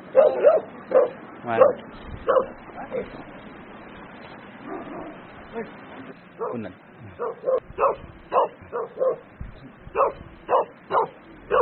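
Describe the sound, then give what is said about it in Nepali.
Dogs in Sikkim bark while chasing each other, sending out many sharp, loud yaps and barks. The barks come in scattered bursts at first, then in a quick, steady run of repeated calls. “हाम्रो कुकुरलाई त इन्डियाको कुकुरले सिक्किमको कुकुरले नेपालको कुकुर खेदाइदियो”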